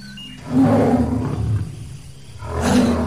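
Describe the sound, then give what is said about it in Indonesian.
A tiger roaring: two deep, loud, growling roars, the first long and sustained and the second starting near the end, with no voices over them. “Oh, harimau. Matanya ganas memandangku.”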